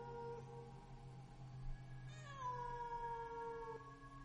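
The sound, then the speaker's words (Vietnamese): A cat cries pitifully at night from inside a room, giving one long, drawn-out meow that starts high and slides down, then holds a thin whining tone before fading, quiet over a faint steady hum. “Họ còn chưa kịp đi vào thì tiếng của con mèo tựa như kêu lên thảm thiết đánh động cả mấy người thanh niên ngủ ở nhà trước.”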